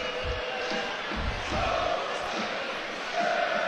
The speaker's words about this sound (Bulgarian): Логични са и тези освирквания от трибуните, от феновете на Ботев Пловдив